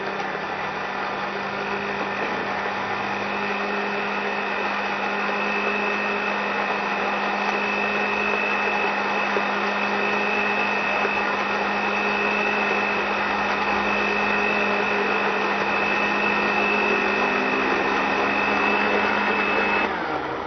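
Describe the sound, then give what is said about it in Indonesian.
Electric blender running as it blends ingredients until smooth: a loud, steady motor whine with a constant hum beneath, holding the same pitch for about twenty seconds before cutting off at the end. “Biarkan blender sampai halus.”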